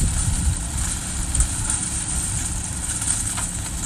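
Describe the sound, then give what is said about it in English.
Steady low engine rumble from a truck moving slowly through a sweet corn harvest on a farm in southwest Georgia, pushing a trailer where workers sort and pack hand-picked corn; constant and even throughout, with no clear voices. “here's the sound of sweet corn getting harvested last week at Casey Cox's farm in southwest Georgia.”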